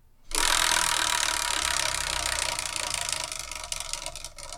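A giant homemade Wheel of Fortune spins with a dense, rapid rattling clatter that starts abruptly. The clatter stays loud, then gradually thins into slower, more distinct clicks as the wheel loses speed.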